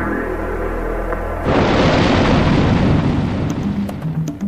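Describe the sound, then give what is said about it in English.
A space shuttle explodes after liftoff: a low droning hum abruptly gives way to a loud, dense roaring rumble that continues steadily to the end. “We have a report relayed through the flight dynamics officer that the vehicle has exploded.”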